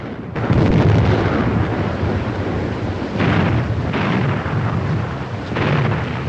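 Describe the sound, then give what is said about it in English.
A ship's guns shell a hilly coastline, sending out a few heavy, booming blasts spaced seconds apart over a low, continuous rumble, with no voices. “The ship begins to bombard the hills with shellfire.”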